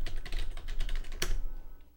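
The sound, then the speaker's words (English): Someone types a fund ticker symbol on a computer keyboard. A quick, even run of crisp key clicks ends in one sharper tap, then fades to quiet. “I'll type in FLPSX, and it says it's closed.”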